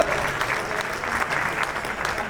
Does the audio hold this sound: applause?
yes